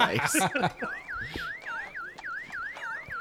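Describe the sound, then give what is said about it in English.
A car alarm chirps in rapid repeated electronic sweeps at a steady rhythm, many identical warbling beeps following a brief burst of other sound at the start. “Low key, she also forgot where the car is, so she's gonna follow the beep.”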